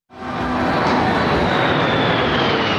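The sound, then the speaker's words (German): Air Force fighter jets roar low overhead in formation above the National Mall. A loud, sustained engine roar surges in almost at once and holds steady, with a high whine that drifts slowly downward. “während die Kampfflugzeuge der Air Force im Tiefflug über die National Mall in den Sonnenuntergang donnern.”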